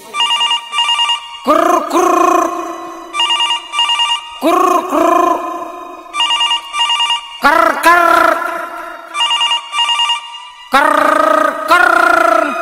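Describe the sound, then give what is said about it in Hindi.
A telephone ringback sounds while a woman calls her husband: loud, bright electronic ringing in repeated bursts with short gaps between them, continuing steadily throughout. “Phone लगेले भी औरतिया अपना पति लगे”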